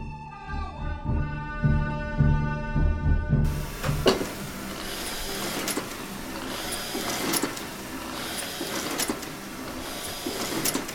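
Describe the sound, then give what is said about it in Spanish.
Mechanical clatter of a printing press running inside a Paris print shop in 1967, a dense, steady churn with sharp repeated knocks. Steady tonal sound fills the first few seconds before the machine noise takes over. “Nos hemos desplazado ahora al interior de una imprenta de París.”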